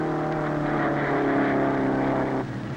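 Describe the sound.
Engine roar of an old jalopy car pulling away at a hot rod race: a steady, buzzy droning rumble with strong harmonics that drops in level near the end.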